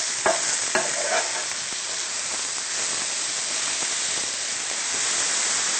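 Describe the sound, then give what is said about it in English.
Mushrooms and leeks frying in a pan, a loud, steady sizzling hiss throughout, with a couple of brief stirring scrapes early on. “Now we'll let the mushroom and leeks cook for about 3 to 4 more minutes, so they can get almost tender before we add the spinach, which cooks up very quickly.”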